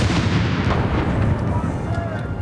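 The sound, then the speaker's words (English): A 41-gun artillery salute fired by horse artillery in a park in central London: a loud, dense, rumbling blast with voices mixed in. “this is the 41-gun salute fired by the King's Troop Royal Horse Artillery in Green Park in central London.”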